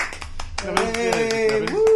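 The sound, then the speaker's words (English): Hand clapping from a group at a weekend camping gathering. Many sharp claps fall in a loose, steady rhythm while a voice calls out over them. “Where's the clapping?”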